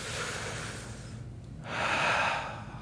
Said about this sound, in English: I want you just to sort of take a deep breath